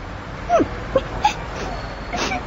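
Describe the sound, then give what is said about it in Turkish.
A child cries in a Turkish radio drama, giving a few short, whimpering sobs with wavering, falling catches in the voice, over a faint background hiss. “Ağlıyor musun sen? Neden ağlıyorsun bakayım?”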